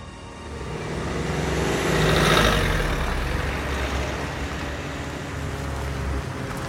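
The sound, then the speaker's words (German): A small van driving onto an abandoned site and turning into a warehouse, its engine a steady low rumble that swells to a peak and then eases off, with no talk. “Der Kleintransporter mit Moritz und Kira im Laderaum fährt auf ein verlassenes Gelände und biegt direkt in eine Lagerhalle ein.”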